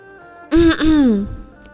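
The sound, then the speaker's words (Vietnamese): A cough, harsh and voiced: a short throaty burst, then a longer rasping clearing of the throat that slowly fades, fairly loud with no other sound. “Triển Chiêu lại ho, nói.”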